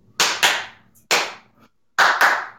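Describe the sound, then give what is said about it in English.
Sharp hand claps beat out a rhythm: a quick double clap, a single clap, then another double. Each clap is crisp and loud, with silence between the groups. “But we have to know this little clap as well. There's a clap where we go”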